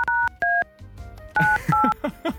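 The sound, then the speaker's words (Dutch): Telephone keypad dialing tones as someone calls a caller back: a quick series of short beeps of differing pitch, some loud and some fainter, with brief gaps between them. “We gaan nog een keer bellen, ja.”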